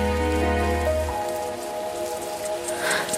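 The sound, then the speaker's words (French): Summer rain heard through an open window: a steady hiss of falling drops that holds at an even level throughout, with faint sustained tones underneath. “la fenêtre ouverte laisse passer, un parfum peut-être. C'est la pluie d'été.”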